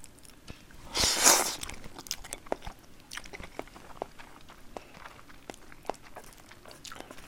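Chewing and biting of someone eating a meal at a table in a living room: one louder crunchy burst early on, followed by many faint, soft clicks and smacks of mastication.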